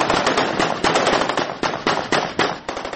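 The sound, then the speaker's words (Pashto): Rapid celebratory gunfire shot into the air by hundreds of Afghan army soldiers in the Nawa district bazaar, heard as many loud, sharp, overlapping cracks in dense, continuous bursts with no talk. “د افغان پوځ په سلګونو سرتیرو د ناوې ولسوالۍ په بازار کې د وسلوالو څخه د دې ولسوالۍ د مرکز د بیرته نیولو په خاطر جشن نیولی او هوایی ډزې کړې.”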